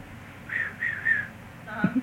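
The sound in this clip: A person whistles to call a horse in from the pasture: three short, fairly high whistled notes in quick succession, followed by a brief low voice sound.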